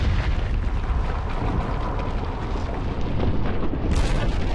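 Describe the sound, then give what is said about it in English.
A volcano erupting lava gives a loud, continuous roaring rumble full of crackling bursts. A bright hissing surge rises near the end. “Lava starts to erupt from a volcano.”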